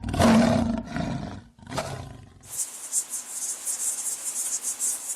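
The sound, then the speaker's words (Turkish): A lion's loud, deep roar in a few rumbling bursts gives way to the rapid, high, buzzing chirps of the tiny 2-millimetre freshwater insect Micronecta scholzi, pulsing steadily with no voices. “Peki bu iki hayvandan hangisinin sesi daha yüksek? Aslanın mı yoksa Micronecta scholzi adı verilen bu 2 milimetre boyundaki tatlı su canlısının mı?”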